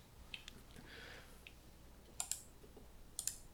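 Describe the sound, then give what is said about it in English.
Computer mouse clicks refreshing a web page: a few faint, sharp clicks over quiet background hiss, including two quick double clicks near the end. “That click you hear is refreshing the page, everybody.”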